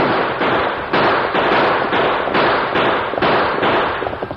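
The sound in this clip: Rifle gunfire in a western radio drama stagecoach chase: a loud, rapid series of sharp crackling shots at a fairly steady rhythm over continuous rough noise, without voices.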